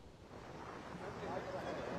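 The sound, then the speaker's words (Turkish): Strong wind roars and buffets the microphone at the Sarayburnu seashore in Istanbul, a dense, steady rush of noise that swells slightly louder toward the end. “bugün İstanbul'da kuvvetli rüzgar etkili. Biz de şu anda Sarayburnu sahildeyiz.”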